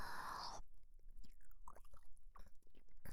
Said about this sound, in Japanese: 今日もあなたの耳おいしそう。少し味見しちゃいます。